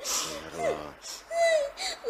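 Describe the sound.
A girl sobs and whimpers in a few wavering, wailing bursts with gliding pitch, faint and broken by short pauses.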